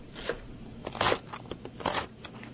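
Knife chopping vegetables into small cubes on a board, a run of many crisp, crunchy cuts in an uneven rhythm, each a short dry burst, with no talking.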